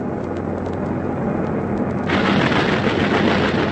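Anti-aircraft pom-pom gun fire in a valley: a dense, continuous roar of rapid shots with a few sharper bursts early on, then growing louder and brighter partway through, with no voices.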